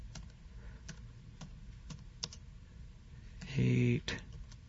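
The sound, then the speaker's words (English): Typing on a computer keyboard, a sparse series of separate key clicks spaced unevenly, with a brief voice near the end. “I guess I won't find Matthew 78. Maybe I better type this correctly here.”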